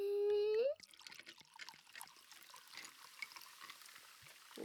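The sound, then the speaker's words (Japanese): Lightly sparkling wine poured into a glass, a faint steady trickle with small splashes and drips that runs on for several seconds after a short tonal sound at the start. “よしよし、それではいよいよお主の持ってきたぶどう酒を注いで、”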